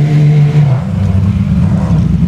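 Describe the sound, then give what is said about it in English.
A Porsche race car roaring past during a sports car race, its engine tone dropping sharply in pitch as it goes by, then settling into a loud, lower, rough rumble. “It's there's Wright Motorsports Porsche going by us.”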